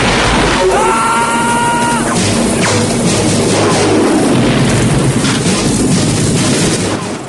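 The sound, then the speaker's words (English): Explosions as Rambo blows up huts in a film battle scene, a loud, continuous roaring rumble of blasts, with a brief shout near the start. “Rambo sneers with rage as he blows up countless huts and guns down dozens of Russian and Viet soldiers.”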